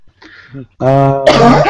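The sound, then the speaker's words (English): Coughing from someone whose Dr Pepper soda went down the wrong way: a brief voiced hack followed by harsher, breathy coughing bursts, fairly loud and close together. “Who's coughing a lot? Are you okay, whoever you are? That's me. My Dr. Pepper went down the wrong tube.”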